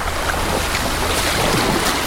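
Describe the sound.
Ocean surf washing onto a sandy beach in a warm summer wind, a steady, unbroken rush of water and air with no voices.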